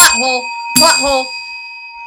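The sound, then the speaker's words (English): A bell is rung, its bright sustained tone ringing steadily beneath a voice that talks over it in two short bursts. “I don't think anyone will listen to us next week if we spent this week just ringing a bell for an hour.”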